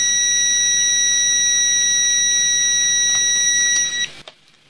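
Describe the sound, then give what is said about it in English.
A multimeter's continuity-test buzzer sounds as a loud, steady, shrill beep that holds without a break for about four seconds and then cuts off, leaving near silence. “And it can also measure short circuits, which it does with a buzzer.”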